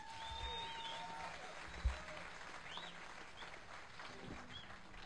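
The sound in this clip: Audience applause greets a musician from Breaux Bridge, Louisiana, as he is introduced on stage. The clapping is faint, steady and even, holding for about five seconds with one brief louder thump partway through.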